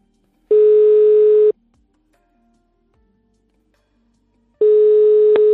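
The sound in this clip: Ringback tones from an outgoing telephone call: two steady, mid-pitched beeps, each about one second long, separated by roughly three seconds of line silence.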